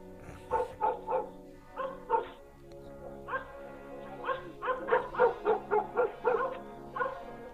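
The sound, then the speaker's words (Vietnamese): A dog barks at night, chained on the porch of a house where builders are sleeping. It gives many short, high yipping barks in uneven bursts. The barks are fairly faint, and the quick run near the end comes in a steady rhythm. “Có tiếng gì đó, nó giật mình, dường như là tiếng chó sủa ở đâu.”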